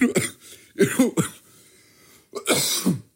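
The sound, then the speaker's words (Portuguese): Harsh coughing from a person with a lingering cough after flu or similar illness, in three bursts: a short cough, then a double cough, then a final longer hacking fit after a pause, with no talk. “Tipo, estou a tossir tanto”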